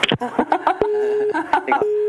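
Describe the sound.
A telephone busy tone follows a caller hanging up during a phone-in call, sounding as steady, evenly pitched beeps that alternate with a voice talking.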